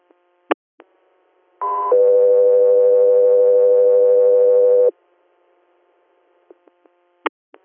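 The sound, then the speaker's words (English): Dispatch radio alert tones for an air medical service: a short higher tone gives way to a long, steady lower tone of about three seconds, with faint clicks before and after. “standby for tones.”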